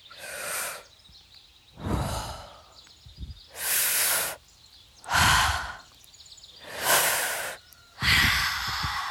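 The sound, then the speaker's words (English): Slow deep breaths in a calming breathing exercise done with fingers interlaced and hands at the chest: six long, airy rushes of breath with quiet pauses between them, steady and unhurried, with no talking. “Take a deep breath in. Hold it for a few seconds. Now breathe out. Now let's do 5 more deep breaths.”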